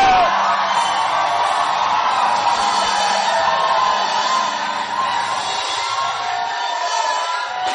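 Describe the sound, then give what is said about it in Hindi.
A large crowd shouts, whoops and screams together in one sustained, loud burst of cheering that holds at a steady level from start to finish with no pauses. “So let me see whether you can shout, jump, and scream at the same time. 1, 2, 3.”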